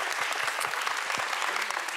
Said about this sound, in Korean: 우리 200팀에게 큰 박수 한번 부탁드리겠습니다.